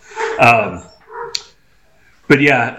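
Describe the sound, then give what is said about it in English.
A dog barking excitedly in a workshop, a few loud harmonic barks and yelps in separate bursts with short gaps between them. “the dog's going ballistic. I don't know if you guys can hear that.”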